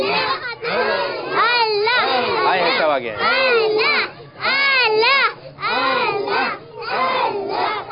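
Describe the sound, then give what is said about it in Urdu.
A child cries loudly in long, wavering wails, with several bursts separated by short breaths. “پاپا یہ رو رہے ہیں. جو روتا اس کا کام نہیں ہوتا.”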